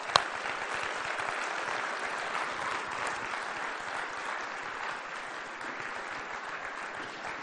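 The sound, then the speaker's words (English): Church audience applause welcoming a guest speaker at Common Way Church: a continuous, even wash of many hands clapping, fairly soft and steady throughout, with no voices over it. “Let's put our hands together and give Dr. Majeski a very warm Common Way Church welcome.”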